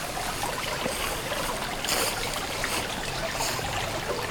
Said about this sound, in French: Le clapotis de l'eau vous invite à une pause.